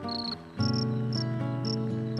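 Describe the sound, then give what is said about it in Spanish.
A cricket chirping on a calm moonlit night, sharp high chirps repeating at an uneven pace over steady, sustained low tones. “El grillo, sereno, contento, cantaba melodías de amor.”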